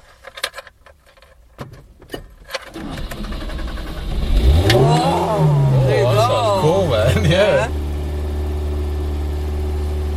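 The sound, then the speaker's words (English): Keys jangle in a few sharp bursts, then a car engine starts after cranking, a vehicle that does not always start on the first attempt. It revs up and down several times, then settles into a steady idle. “I want to hear this engine.”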